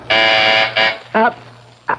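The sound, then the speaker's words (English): A downstairs phone buzzer sounds a long, harsh, steady buzz, then a shorter second buzz, with brief tonal bursts after it. “That's the phone buzzer from downstairs, dear. I have to answer it.”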